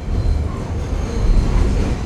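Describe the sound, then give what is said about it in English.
A New York subway train in motion gives a loud, steady low rumble with rattling wheel noise that carries on without a break. No one speaks. “We transfer to one more train, get off near Rockefeller Center”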